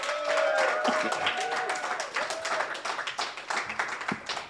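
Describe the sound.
Many hands clap as a comedy audience welcomes a comedian onto the stage, a loud, dense patter that thins and becomes choppier toward the end, with voices mixed in.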